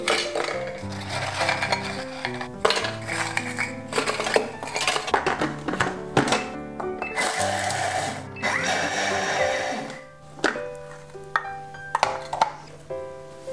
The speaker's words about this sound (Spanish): A continuación, trituro las galletas.